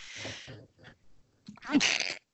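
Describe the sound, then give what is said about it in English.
A person sneezes: a few short breathy vocal sounds lead into a loud, sharp burst that ends abruptly. “That was my sneeze. That was me.”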